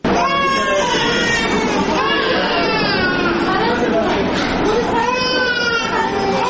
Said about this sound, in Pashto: دا د ترینکوټ ولایتي روغتون ښځینه برخه ده. دغلته په هر وتا کې تر شلو پورې زیاتې میرمنې ناستې دي. د چا ماشوم په غېږ کې دي، د چا مخې ته پر کټ ورته پروت دی. ماشومانو خپل رنګونه له لاسه ورکړي تک ژاړ دي.